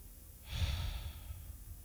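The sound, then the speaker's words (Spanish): One slow, deep breath during a calm relaxation exercise, soft and airy, swelling and then easing off gently. It is faint, with no voice over it. “Y vuelvo a respirar. Uno. Dos.”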